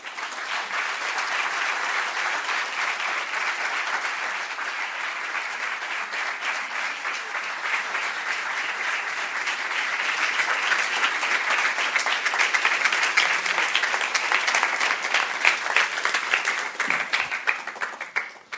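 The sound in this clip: Long, warm applause from an audience welcoming a novelist onto the stage at a New York literary event. The clapping is dense and sustained, swelling a little past the middle before tapering off at the end.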